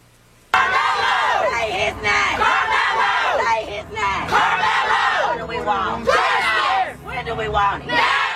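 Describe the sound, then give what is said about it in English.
Protesters in a large crowd chant for justice, loud shouted phrases repeated in unison in rhythmic, sustained bursts. “And so we got this from the protesters. We got this kind of behavior right here. Here, take a listen.”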